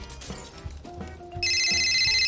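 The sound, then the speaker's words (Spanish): A telephone ringing: a few low thuds give way to a loud, steady electronic trill that starts partway through and carries on to the end. “Uy, está llamando Ignacio.”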